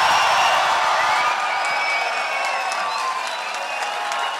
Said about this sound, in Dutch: Beste CDA'ers, wat een geweldige avond. Juich maar even.